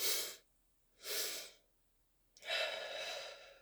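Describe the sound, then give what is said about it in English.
Audible breathing during a guided breathwork meditation, done with the arms wrapped around the body in a self-hold. Three soft, airy breaths come alone: two short ones with a pause between, then a longer, sustained one. “let's take the double inhale with our arms wrapped fully around our body. Inhale. Again.”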